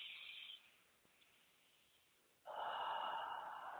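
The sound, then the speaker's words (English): Deep breathing during a guided heart-centered breathing meditation: a brief breathy rush of air at the start, a quiet pause, then a louder, sustained breath of airflow that carries on to the end. “So we're going to take some deep breaths in.”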